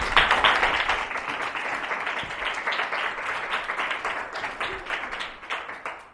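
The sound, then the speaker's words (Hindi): Applause from an audience at a Christian worship service: a dense, steady crowd clapping that holds for several seconds and tapers off at the end. “यीशु मसीह के लिए जरा जोरदार ताली”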